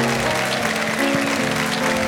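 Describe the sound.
Audience applause welcomes a guest singer onto the stage of a live variety show, a continuous wash of clapping that stays steady and fairly loud throughout.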